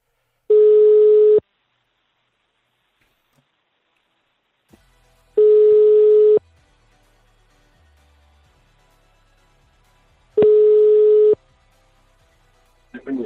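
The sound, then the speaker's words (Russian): Ringback tones on a telephone line after a number is dialed: three evenly spaced, steady mid-pitched beeps of about a second each, separated by several seconds of near silence with faint line noise. “Так, набираю.”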